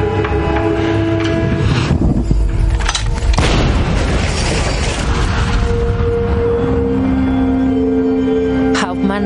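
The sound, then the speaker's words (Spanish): Tank cannon fire against the facade of an orphanage in a Second World War war drama: a few heavy booms with rumbling, crackling debris, set in a dense, continuous mix of other sound. “el tanque dispara contra la fachada del orfanato”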